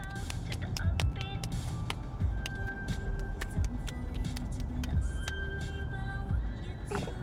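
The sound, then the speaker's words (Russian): Two vans drive along a road with a steady low engine rumble and road noise, and faint ticks and clicks are scattered on top. “По дороге едут два фургона.”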